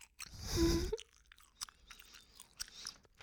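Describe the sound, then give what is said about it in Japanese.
Gum is chewed close to the ear. A louder wet squelch comes early, then a steady run of soft, sticky clicks and smacks, all quiet and intimate. “僕の耳の横で、耳元でガムを食べる音を聞かせてくださいって言ったら、きっとみんな引いちゃう。”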